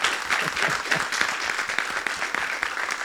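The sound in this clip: Applause from a church audience honoring two teachers, steady dense clapping throughout at a moderate level with no talk over it.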